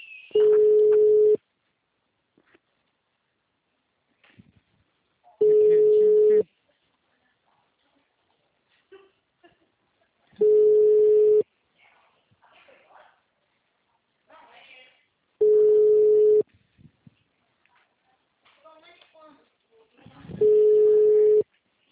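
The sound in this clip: Ringback tone of an unanswered phone call: five steady, mid-pitched rings of about a second each, evenly spaced roughly five seconds apart, with faint scattered sounds in the quiet gaps between them.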